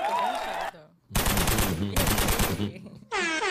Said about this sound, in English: What, you want some gunshots or something?